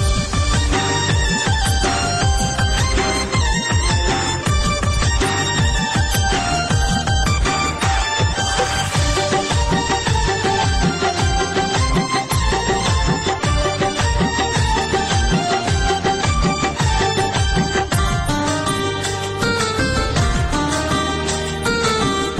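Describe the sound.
A Pashto song plays: loud, dense music with a steady driving beat and layered instruments running continuously at full volume.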